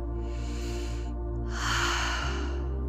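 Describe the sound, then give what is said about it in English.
A deep breath in during a guided morning meditation: two soft, airy breathy swells, the second fuller and louder, over a steady low sustained musical drone. “Start by taking a deep breath in, inhaling positivity and calmness.”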